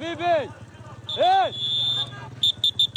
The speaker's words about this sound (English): This is the whistle of the traffic police in Khan Yunis city after the deployment for the first time ever in the streets of Khan Yunis